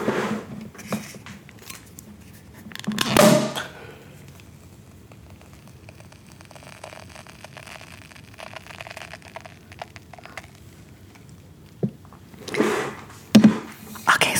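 A cork popping out of a bottle: a single sharp burst with a brief hiss trailing after it, standing out against a quiet background.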